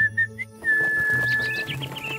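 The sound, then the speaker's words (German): A person whistles to coax small birds out on a mountain morning: a few short whistled notes come first, then a quick run of high, bright chirps over a soft, steady tone. “Also, um das flatternde Federvieh hervorzulocken, muss man pfeifen.”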